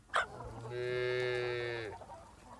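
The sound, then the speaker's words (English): A single long, low moo from cattle on a farm swells and holds for about a second before tailing off, opened by a brief sharp sound just before it. “You hear it? Farm animals.”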